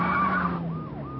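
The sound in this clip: A police siren wails during a car chase, its tone sweeping up and down in repeated cycles over a steady low engine rumble.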